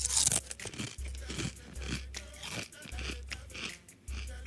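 Loud crunching on a cereal that tastes like frosted flakes, many dry, brittle crunches in a steady chewing rhythm, heard alone without speech.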